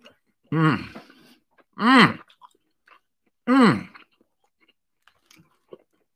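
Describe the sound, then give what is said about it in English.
Chewing while eating green beans and steak at a mukbang meal: three loud voiced, hum-like mouth sounds spaced about a second apart, then faint scattered wet clicks of chewing in near silence. “I'm sitting here eating these green beans. I've been neglecting this delicious steak.”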